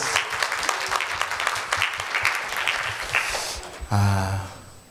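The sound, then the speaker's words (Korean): Applause from a church audience for the performers after a song at a Full Gospel church service in Fukuoka. A dense, steady wash of clapping holds for several seconds, then drops away as a sustained tone begins near the end. “우리 친구들에게 큰 박수 부탁드립니다.”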